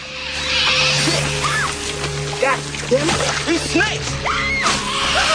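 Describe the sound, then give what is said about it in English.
Debris and fuel barrels fall from a barge into water, producing bursts of splashing and sloshing with scattered crashing impacts. Voices are heard over the water noise. “Watery debris showers down on the barge. A flying branch knocks away the rope securing the fuel barrels, which fall into the water.”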